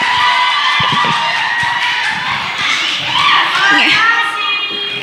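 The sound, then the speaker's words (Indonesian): A crowd cheers, shouts and applauds for a group taking the stage at a live marawis performance during a large reunion event. Many high-pitched voices rise over a dense, loud roar that lasts throughout. “Beri tepuk tangan yang meriah untuk Ibu Yani dan kawan-kawan.”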